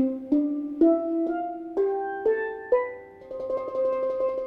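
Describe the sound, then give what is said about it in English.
A C major scale starting from middle C rises on a tuned instrument with several registers. Evenly spaced struck notes ring out one after another, each climbing in pitch, then shift into fast repeated rolled strikes at the top. “So if I were to play a C major scale, it would sound like this, starting from what we know of as middle C on a piano.”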